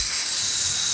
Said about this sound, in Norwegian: Det er lyden av en god kottebøff på en kølgrill.